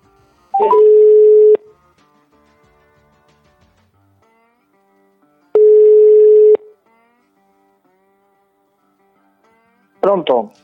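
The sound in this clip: Ringback tones play on an outgoing phone call placed by pressing the call button: two loud, steady buzzing rings of about a second each, separated by a long silent gap, before a voice briefly begins at the end.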